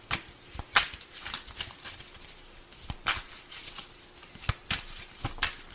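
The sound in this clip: Cards being shuffled and drawn during a card reading: many soft, crisp flicks and snaps at irregular intervals, fairly quiet, with no talk.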